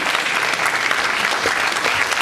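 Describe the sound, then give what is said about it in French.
Audience applause greeting a jury member introduced at an evening event, a full, continuous clatter of many hands clapping at a steady level throughout. “Merci de l'acclamer.”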